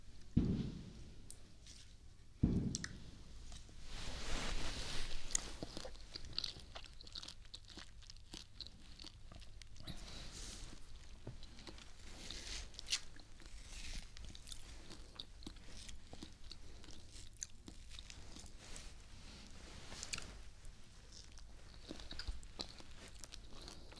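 Biting and chewing of sweet food, with two sharp crunchy bites near the start followed by steady, moist chewing that continues at a moderate level throughout, with no talking.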